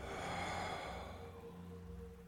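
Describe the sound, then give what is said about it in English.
A deep breath through the nose during a guided meditation, a soft airy rush that fades after under a second into a quiet, steady background. “breathing only in and out through the nose. And let's sync our breath, taking one giant inhale and exhale, let it go.”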